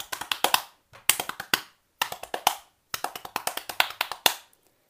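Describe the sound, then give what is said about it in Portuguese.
Hands tap on a belly in quick, crisp bursts. Many light slaps form short rhythmic clusters separated by brief pauses, with no talk. “batendo as mãos na barriga”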